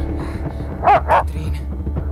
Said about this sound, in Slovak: Okamžite chyť toho psa